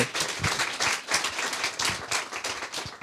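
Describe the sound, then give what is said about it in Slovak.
Audience applause for a guest at a Slovak talk event: brisk, even clapping from many hands that holds at a steady level throughout. “Zatlieskajte ho, prosím vás, pekne ešte raz.”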